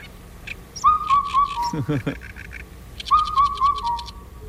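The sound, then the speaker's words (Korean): Black-backed cuckoo calls, played as a quiz recording: two phrases of clear descending whistled notes, each mixed with rapid, higher chirping clicks, fairly loud over a faint background hiss. “어떤 민요의 선율을 연상시키는 검은 등 뻐꾸기 울음소리 다시 한번 들어보시죠.”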